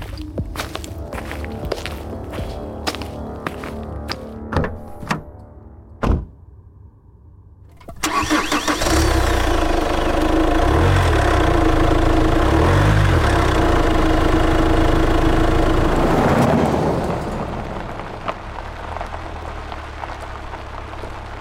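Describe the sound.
A car engine starts with a sudden roar after a few sharp taps, then settles into a steady mid-pitched idle that runs for several seconds before dropping to a quieter hum.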